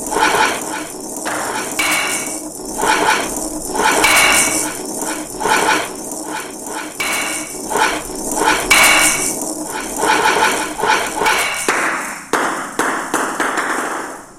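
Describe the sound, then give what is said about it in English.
Sharp clacking hits of a table tennis ball in a computer video game match, a rapid, uneven string of bright knocks over a constant noisy background throughout. “Computer shot the ball out of the table. The points are now 5-7. Computer's serve.”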